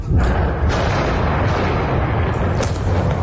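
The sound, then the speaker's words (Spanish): Explosions from Israeli bombing in eastern Lebanon's Bekaa Valley, heard as a loud, continuous deep rumble with a couple of sharper bursts, one at the start and one near the end. “Sonido de esos bombardeos.”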